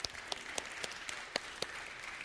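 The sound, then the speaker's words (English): Congregation applause during a church service: a steady wash of many hands clapping, fairly faint, with sharper individual claps cutting through at a brisk, even beat and no talk over it. “You can clap for that.”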